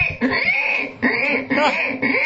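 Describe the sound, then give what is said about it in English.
A person imitates a pig with a few loud, nasal squealing and snorting vocal bursts in quick succession, each one wavering in pitch. “I want to hear an impression of a piggy I can do. Listen.”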